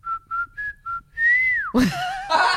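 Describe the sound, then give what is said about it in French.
A person whistles an imitation of a bird's call that repeated every couple of seconds each morning from 6 a.m. There are four short, even whistled notes, then one long note that bends downward, followed by a burst of noisier sound. “j'entendais un bruit très précis que je peux vous reproduire aujourd'hui d'un oiseau”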